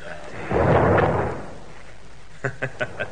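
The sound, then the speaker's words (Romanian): A cannon salvo fired as a salute at a royal court: a loud, deep boom swells and rumbles for under a second, then fades, followed by a few short, sharp taps. “S-a tras o salvă de tunuri în onoarea mea.”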